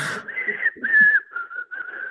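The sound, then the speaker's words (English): A person whistles an imitation of a sparrow song, a breathy start followed by about four short, wavering whistled notes at a similar mid-high pitch, separated by brief gaps, with no other sounds around them. “I can sort of whistle that. Not great.”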